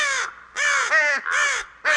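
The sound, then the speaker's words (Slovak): Crows from circling flocks caw loudly in a run of four harsh, drawn-out calls, each slightly falling in pitch, with brief gaps between them and no other sound. “bezmocne pozerala cez okno na krdle vrán, ktoré radostne krúžili po oblohe.”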